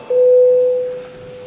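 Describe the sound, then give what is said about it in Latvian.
A parliament voting bell sounds as one loud, steady electronic tone that holds for just under a second and then cuts off, with no other sound around it. “Lūdzu, zvanu, balsosim par trešo deputātu Kalnozola iesniegto priekšlikumu.”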